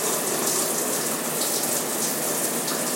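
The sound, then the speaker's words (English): A shower runs with a steady, even rush of falling water, bright and hissy, holding the same level throughout with no voices. “How's this thing work? Taking a shower.”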